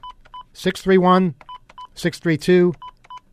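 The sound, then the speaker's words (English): Telephone keypad tones as someone dials a new phone number: several short, steady, mid-to-high beeps in quick clusters, with a person talking between them. “look what happens when you try to call you guys at your new phone number. I'm going to demonstrate this right now. If you call”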